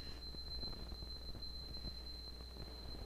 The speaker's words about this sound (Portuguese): É que deve ser o horário, né, de alarme de sábado.